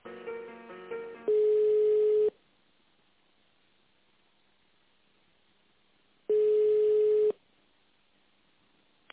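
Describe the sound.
Telephone tone while a call is transferred to a company's chief accountant: two loud, steady, mid-pitched tones, each about one second long, separated by several seconds of near silence.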